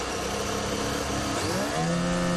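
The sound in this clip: A racing car engine restarting after stalling on the track: a steady, loud mechanical roar whose pitch climbs in the second half as the revs rise.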